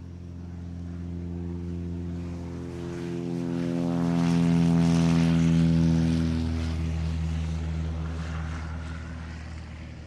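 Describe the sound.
A propeller aircraft in flight on the way to Diepholz drones steadily with a rich, humming engine tone. It swells to its loudest around the middle and then eases slightly, with no talk.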